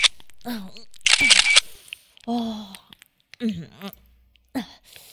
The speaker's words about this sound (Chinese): 给哥哥我拍点照片儿